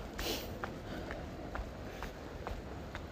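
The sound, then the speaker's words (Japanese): A hiker's footsteps crunch along a mountain trail toward a hut in Miyazaki, Japan. Evenly spaced footfalls keep a steady walking pace over a faint, constant background hiss. “丹助岳かなの山小屋を目指して歩いております”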